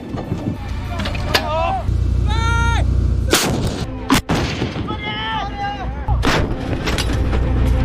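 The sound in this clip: Heavy artillery blasts from a gun loaded by hand after its autoloader broke during a live-fire drill: a few loud, sharp booms with ringing tails, and shouted voices in between.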